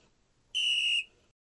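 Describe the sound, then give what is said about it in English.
A whistle marking an intermission sounds once as a single clear, high, steady tone lasting about half a second, alone against near silence. “which I mark with two whistle sounds like this.”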